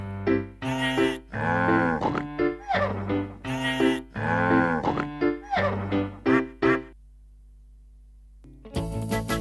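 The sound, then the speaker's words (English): Farm animal calls, with mooing and oinking among them, come as many loud, tonal bursts in a lively sequence. A steady low hum follows, then a final noisy burst. “These are the sounds that the animals make each and every day. These are the sounds that the animals make. Listen to what they say.”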